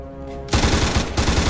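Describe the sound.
Rapid automatic gunfire: a loud, continuous rattle of closely spaced shots begins abruptly after a short, quieter tonal passage, dips briefly and then surges again in a second burst.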